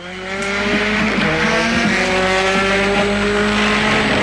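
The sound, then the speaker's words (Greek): Hyundai i20 and Ford Puma rally cars driving hard, a loud sustained engine roar with a steady, strongly harmonic note that holds high throughout, with no talk. “Για να ακούσουμε ήχο από Hyundai i20 και Ford Puma.”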